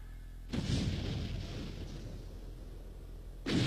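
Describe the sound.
Machine-gun strafing fire at prisoners packed into two cells: a loud burst erupts and rolls on as a dense, rumbling wash of rapid shots, then a fresh burst strikes near the end, with no voices.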